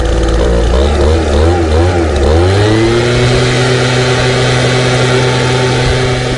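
A gas-powered leaf blower running: a loud, buzzing engine drone wavers in pitch at first, then climbs and settles into a steady, sustained high whine.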